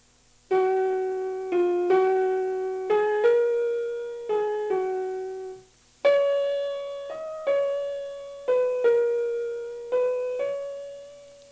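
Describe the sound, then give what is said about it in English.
A slow, gentle melody from section A of a sonatina's slow movement, played as single sustained, gradually decaying notes in two calm phrases. A short pause separates the phrases, and the second phrase sits slightly higher. “Our fourth example is the slow movement from the third sonatina. Section A sounds like this.”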